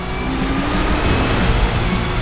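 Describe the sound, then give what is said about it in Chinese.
A race car accelerating at full throttle in fourth gear during a wet race. Its engine gives a steady, loud, dense roar that holds level throughout with no clear change in pitch. “四档全油门，现在。”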